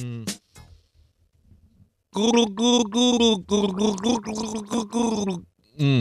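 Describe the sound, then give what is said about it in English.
A person gargles while voicing a tune. A short burst of gargling comes first, then a pause with faint gurgles, then a longer run of loud, pitched, bubbling phrases broken into several bursts. “Let me just practice gargle. Hang on.”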